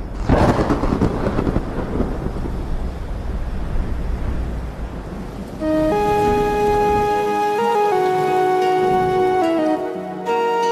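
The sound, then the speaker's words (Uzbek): A thunderstorm with rain: deep rolling thunder and a dense hiss of rain fill the first half, then music with sustained tones takes over while the storm noise drops away. “Havoni qarang. Jinnimisiz? Yomg'ir yo'g'u? Mayli, yomg'ir yog'ib qolishi mumkin-ku.”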